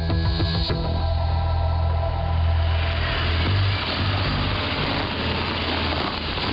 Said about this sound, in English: A black BMW pulls up in a suburban street in Bradford.